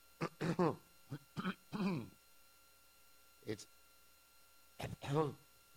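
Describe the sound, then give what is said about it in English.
Coughing and throat clearing from one person, heard as several short, rough bursts in a few quick clusters separated by pauses, with no talk in between. “This is just my normal cough that I have at this particular point.”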